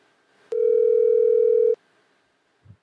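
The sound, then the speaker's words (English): A telephone dial tone sounds while a call is being dialed: one steady, mid-pitched tone with a faint higher overtone holds for just over a second and then cuts off, followed by a soft low thump. “There we go. Dialing.”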